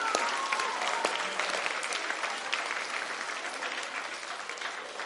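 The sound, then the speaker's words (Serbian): An audience claps together in a dense, steady burst of applause that carries on for several seconds and eases off slightly toward the end. “Pljeskanje, ajde jedno pljeskanje.”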